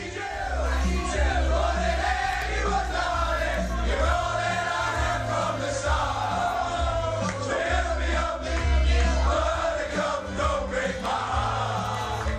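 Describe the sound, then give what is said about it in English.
Shamrock Rovers players sing together in the dressing room after winning the league title. A loud chorus of voices carries a melody with harmonies, holding steady throughout, over a low sustained backing. “So as we congratulate Rovers on their title victory, let's also give them credit for their dressing room singing, a higher standard, I thought, than I've heard in a while.”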